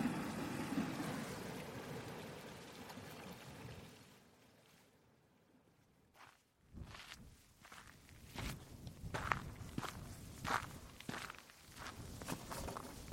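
Footsteps on a coastal path as a walker leaves a small cove and starts a steep climb: many crisp footfalls after a quieter stretch, over a steady rushing background.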